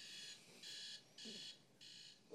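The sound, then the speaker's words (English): An alarm goes off with four evenly spaced bursts of shrill electronic beeping, each burst held briefly before a short gap, faint overall and with no voices. “I'm so curious about that alarm.”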